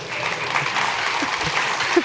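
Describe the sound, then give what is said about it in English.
Audience applause after a comedy scene on stage: a steady wash of clapping at moderate volume with a few brief vocal sounds from the crowd mixed in. “when we have to force the claps”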